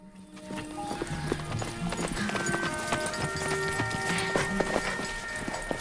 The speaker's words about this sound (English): riding towards her on his horse